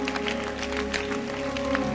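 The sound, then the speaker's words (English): An audience at a sermon claps their hands in a quick, steady rhythm. The claps are moderately loud and sit over a continuous tonal backdrop. “Can you clap your hands? Because you will sit down in 2 minutes.”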